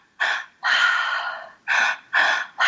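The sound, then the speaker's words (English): Two-stage pranayama yoga breathing, drawn into the stomach and upper chest and released through an open mouth: loud, rushing breaths in four full bursts, one long, plus the start of a fifth, with no talk. “It is a two-stage pranayama yoga breathing that completely changed my life. You breathe into your stomach, into your upper chest, and then you let it go. And it's a meditation. So it sounds like,”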